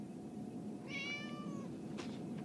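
A single drawn-out cat meow, high and tonal, sounds over steady low background noise and is followed by a brief soft burst of noise.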